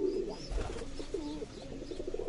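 Racing pigeons coo in their loft, which is fitted with closing boxes that hold nine birds each. The low, throaty cooing forms a continuous overlapping murmur, with no voices.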